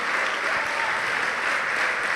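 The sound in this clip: Church audience applauding during a sermon, giving steady, dense clapping without voices for a couple of seconds.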